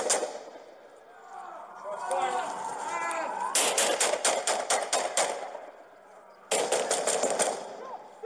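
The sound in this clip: Police gunfire recorded on a body-worn camera: two volleys of many rapid, sharp shots, with people's voices heard before the shooting.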